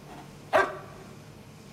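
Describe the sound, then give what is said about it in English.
A dog in a home kitchen gives two short, sharp barks about a second apart over a quiet background. “That's Marilyn, Vivian's dog. That's standard.”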